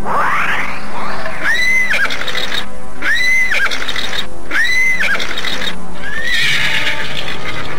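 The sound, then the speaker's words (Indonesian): A horse neighs and rages, letting out several loud, shrill whinnies in succession, each rising and then falling away. Noisy stamping and rustling fill the gaps between calls, and no voices are heard. “Sambil memondong Kayan Manggala, Prabu Sora melenting dan kemudian hinggap di atas punggung kuda yang ternyata telah siap menyambutnya dengan amukannya.”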